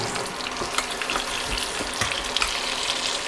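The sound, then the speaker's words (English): Pieces of food fry in a pan with a tiny bit of oil over moderate heat, making a dense, steady sizzle with scattered crackles and pops throughout and no talking. “just going to add in a tiny bit of oil. Thankfully, though, we're not cooking on a high heat”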